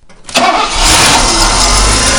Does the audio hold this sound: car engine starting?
yes